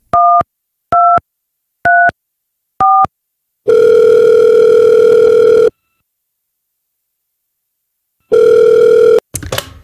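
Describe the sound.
Tones of an outgoing telephone call: four short two-note dialing beeps, then a loud steady ringback tone of about two seconds, a long silence, and a second ring tone followed by a brief burst of noise.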